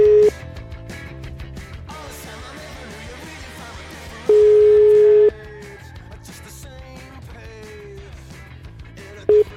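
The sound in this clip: Telephone ringback tone while calling a priest: a steady low beep lasting about a second, repeating roughly every five seconds, with only a brief sliver at the start and end, over dense background sound.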